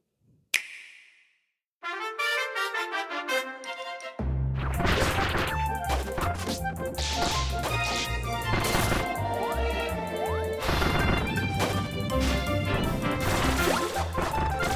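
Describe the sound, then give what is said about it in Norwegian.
Game audio from the Nintendo title Kirby's Return to Dream Land Deluxe: a sharp crash, then a bright tinkling melodic jingle, leading into lively full music with busy percussion. “Vi har hørt lyden av nå, det var lyden av Kirby's Return to Dream Land Deluxe.”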